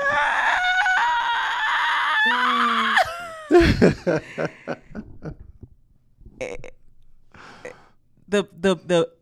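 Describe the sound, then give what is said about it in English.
A voice imitates a woman screaming while giving birth, with a long, strained, wailing cry that climbs sharply in pitch and breaks off into a series of short, choppy gasps and grunts. “The scream, the noise that I made when the baby was coming out.”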